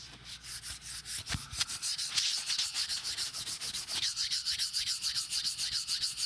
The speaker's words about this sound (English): That's the sound of friction, right? Like the sound of maybe sandpaper smoothing over